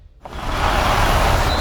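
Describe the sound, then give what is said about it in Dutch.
An electric Jeep Avenger car drives with a steady, loud rushing roar that begins abruptly after a brief quiet moment and holds evenly to the end, with no engine hum. “Met de elektrische Jeep Avenger is het avontuur altijd dichtbij.”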